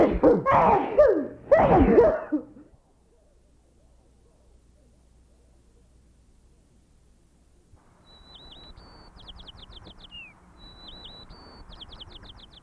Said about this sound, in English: Birds are keenly aware of the activities of other members of their species. They monitor the movements of neighboring birds with the help of a discriminating ear.